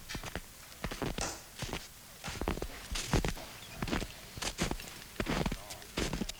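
Footsteps of someone approaching across a harbour. Many steady, evenly spaced paces sound with crisp clicking impacts, fairly faint throughout.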